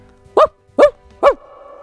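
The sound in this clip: A human voice imitates a dog barking, giving three short, evenly spaced woofs that are loud and gruff, with faint music sustained underneath.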